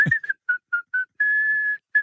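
A person whistles a bright tune: a run of short, steady notes, then one long held note, followed by another short note starting at the end. The whistling is clear and alone, with no talk.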